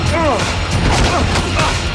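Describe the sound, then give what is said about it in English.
Thuds and crashes of a body flung onto the floor during a superhuman fist fight, a dense, loud stretch of impacts with strained, grunt-like vocal sounds near the start. “They engage in superhuman combat. Sarge flings John onto the floor.”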